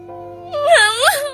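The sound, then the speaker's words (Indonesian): A woman crying in a single tearful, wailing sob that swells and wavers in pitch, loud and alone. “Udah dong nangisnya”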